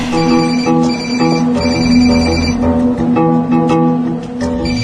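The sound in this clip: A telephone ringtone plays loudly and without a break, its bright electronic tones repeating in a steady pattern, with no talk over it.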